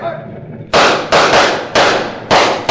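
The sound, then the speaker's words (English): Gunshots are fired at a wagon: four loud, sharp blasts follow one another at fairly even intervals, each ringing briefly before the next, after a quieter stretch of background noise. “You other men, fire at that wagon.”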